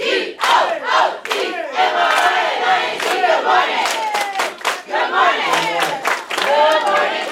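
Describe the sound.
Schoolchildren shout their morning motivation chant together in unison, a loud crowd of young voices delivering rhythmic, punchy phrases with brief dips between bursts.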